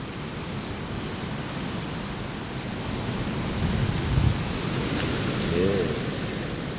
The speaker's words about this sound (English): Even sheltering below the lee of the shed, the wind's so strong, it's managing to get in here now and again.